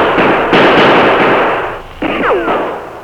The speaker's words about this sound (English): We'll return the fire.